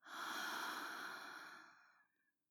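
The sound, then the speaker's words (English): A single deep breath is exhaled slowly, starting strong and breathy, then fading steadily over about two seconds into silence, with no talking. “Take a nice deep breath in. Hold it. And breathe out.”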